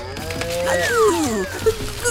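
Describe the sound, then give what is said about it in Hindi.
A cartoon cow moos once in a long, voiced call that slides downward in pitch, followed by a couple of brief clicks near the end. “अरे मूर्ख गाय,”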